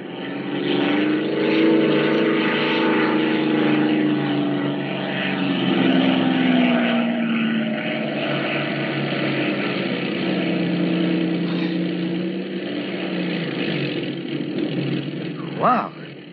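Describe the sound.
A light propeller airplane comes down to land in open country, its engine droning steadily and loudly throughout, the note sinking briefly near the end.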